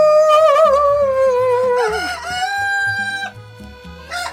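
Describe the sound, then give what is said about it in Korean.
A person imitating a rooster crowing with one long, loud vocal call whose pitch wavers and then falls, followed by a higher held note and a brief final burst. “제가 닭울음 소리를 낼 줄 압니다.”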